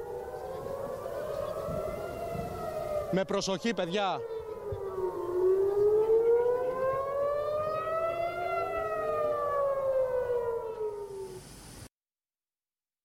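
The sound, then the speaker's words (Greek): Air raid sirens warning of an attack wail in overlapping tones that rise and fall slowly, loud and sustained for about twelve seconds before cutting off abruptly; a brief voice speaks early on. “Είναι μεγάλη η επίθεση. Ακούμε εκ νέου τις σιρήνες.”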